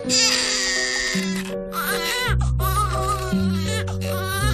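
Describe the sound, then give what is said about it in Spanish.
An infant cries loudly in repeated wavering wails, with several bursts of sobbing over a steady tonal background. “Este que llora es uno de los tres hijos de Marlo”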